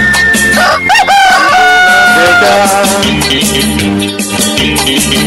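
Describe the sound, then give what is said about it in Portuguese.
A rooster crow, sampled at dawn within a live DJ set, wavers briefly near the start and is largely buried under dense, loud music with steady beats and sustained tones. “Galo cantou. É madrugada”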